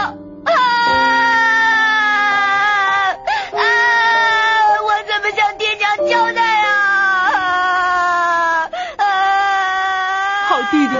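A person cries and sobs in loud, high-pitched, drawn-out wails, each long phrase dipping in pitch at its end, with a few brief catches of breath between them.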